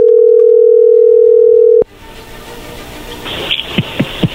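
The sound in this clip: A telephone dial tone sounds while a call is placed: a steady, loud, low-pitched hum that cuts off abruptly, followed by faint line noise and a few sharp clicks.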